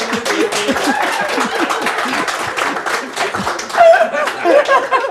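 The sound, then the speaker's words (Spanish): Audience applause at a live comedy show, mixed with laughter and chuckles. Voices talk through the clapping, which swells briefly near the end. “Ustedes deciden cuándo se aplauden, ¿no?”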